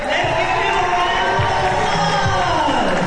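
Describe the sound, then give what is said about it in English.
Middle school students at an event inside an academy in downtown Birmingham cheer each other on. A busy crowd of children's voices and shouts runs continuously beneath a speaking voice. “Middle school students cheered each other on inside J.H. Phillips Academy in downtown Birmingham.”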